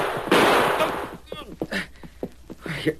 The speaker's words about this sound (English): You shot the guns right out of my hands.